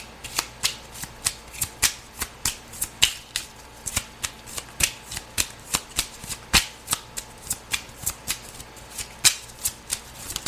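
Playing cards being shuffled during a card reading: many quick, crisp riffles in a steady, even rhythm, with no talk over them.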